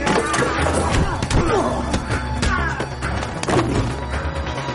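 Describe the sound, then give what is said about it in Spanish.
Several punches land on the stomach in a fistfight in a thriller film, heard as a string of dull thuds and sharp whacks mixed with scuffling noise. “El hombre se defiende propinando a su atacante varios puñetazos en el estómago.”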